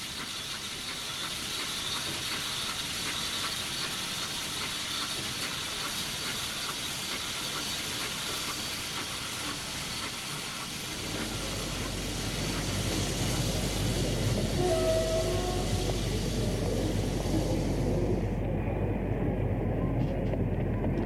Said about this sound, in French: Enfin, le train arrive.